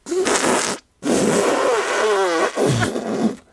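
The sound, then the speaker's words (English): A voice imitates a really loud, amplified farting noise, a dad's running gag around kids: a few long, raspy, buzzing bursts with short gaps between them, loud throughout. “it basically was like this weird, really loud amplified farting noise.”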